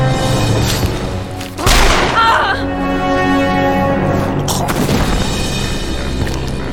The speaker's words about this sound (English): Garrus shot the guy.